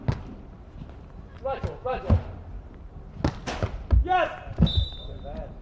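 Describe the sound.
A volleyball serve during a match: a few sharp ball thumps stand out against court noise, while a commentator talks throughout.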